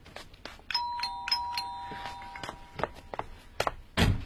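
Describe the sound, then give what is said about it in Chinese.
A door is shut with a single heavy thud at the end, after a doorbell sounds a repeated ding-dong chime and a few light knocks and taps. “你马上回房去，把门关上”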